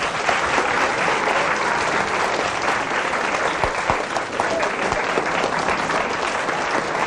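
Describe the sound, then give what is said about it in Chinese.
An audience at a variety show gives a long round of applause, a thick, continuous roar of clapping that stays loud and level for about seven seconds. “大家给点掌声。”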